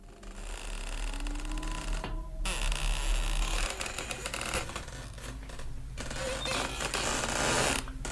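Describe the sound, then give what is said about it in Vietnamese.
A rope creaking as it is pulled and grinding against something: a sustained, strained creak with a rough grinding texture and a low drone beneath it, loud and fairly constant, broken by a couple of brief dips. “nghe thấy tiếng dây thừng cứ kéo cả kéo kẹt, nghiến vào một vật gì”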